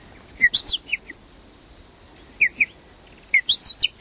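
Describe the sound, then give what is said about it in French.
Young blackbird fledglings, four or five chicks just out of the nest, make high, thin chirps to beg for food. The calls come in three short bursts of quick, whistled notes with quiet gaps between them. “les merles, les 4 ou 5 petits qui sont dans le nid, quittent le nid avant d'être émancipés. Ils disent, en fonction du cri et de la répétition de ce cri, du rythme du cri, ils indiquent leur envie de manger.”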